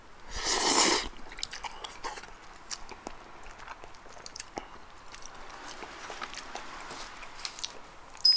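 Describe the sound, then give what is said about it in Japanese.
A bite of Katsuura tantanmen noodles, the local dish from Katsuura, Chiba: one loud, breathy slurping burst near the start, then faint, scattered chewing and crunching sounds. “まずは勝浦担々麺って何勝浦って担々麺有名なの全く知らないで食べるんだけどさちょっと一口食べる”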